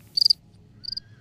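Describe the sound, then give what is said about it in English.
A cricket chirps in two short bursts of about four quick, high-pitched pulses each, faint and evenly spaced over a low, quiet background hum. “Whoa. I heard a cricket. I did hear a cricket chirp.”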